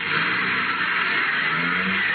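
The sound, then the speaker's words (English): A car speeding off down a street, its engine roaring loudly and steadily the whole time with no break. “Hopped into his car and took off like a scalded skunk. Never even looked back.”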